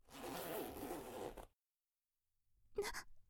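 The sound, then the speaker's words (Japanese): A trouser zipper is pulled down by an interrogator: one continuous rasping zip lasting about a second and a half. Silence follows, then a brief separate burst of sound near the end. “ぼんやりとした視界の中、尋問官はズボンのチャックを下ろし、”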